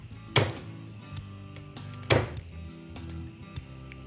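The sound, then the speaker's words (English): Garlic cloves being smashed produce two sharp, loud smacks, well apart, with soft clatter and faint taps in between. “Our garlic down and just separate 4 cloves. And just give them a little smash.”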